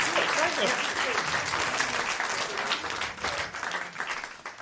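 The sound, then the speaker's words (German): Audience applause congratulating someone handed a CD: dense, steady clapping that runs the whole time at an even level, with voices talking over it. “Ah ja, dann nochmal Applaus für dich. Herzlichen Glückwunsch. Die CD. Applaus für dich.”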